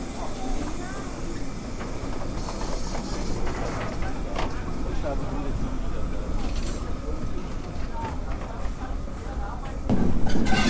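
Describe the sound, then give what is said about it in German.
Steam locomotive 58 311 rattling past tender-first on a special station run with riders on the footplate: a steady rumbling, hissing clatter that swells near the end, with a voice talking over it. “Hier knattert gerade die 58311 Tender voraus an uns vorbei. Mit der Bahnhofssonderfahrt, wo die Leute auf dem Führerstand mitfahren können von der Dampflok.”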